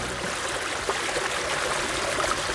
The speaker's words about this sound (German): Ein Sommertag am Keutscher See. Menschen baden, paddeln oder gehen am Ufer spazieren.